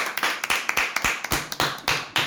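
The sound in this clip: A small group claps after an interview, with many sharp, separate hand claps in an uneven rhythm, often landing in quick pairs, fairly faint and with no talking.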